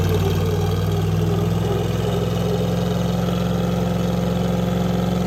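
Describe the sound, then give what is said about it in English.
A built Jeep on 37-inch tires with its locker engaged holds a loud, continuous engine roar during a burnout. The drone stays steady and dense throughout, with no distinct breaks, and there are no voices. “All right, it looks like a one-wheel peel, driver's side rear. No, he does locker on. Okay. Both wheels are going.”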